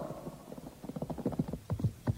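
Horse hooves clip-clop as a mounted group of about fifteen staff officers on well-groomed horses moves along, many uneven overlapping hoofbeats that grow somewhat stronger toward the end, with no voices.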